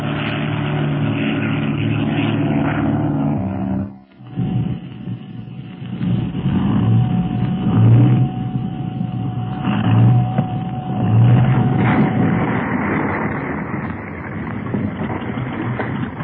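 A seaplane's propeller engine drones steadily as it descends to land on water. The drone is broken by a brief dip early on, then holds a continuous, rough hum to the end.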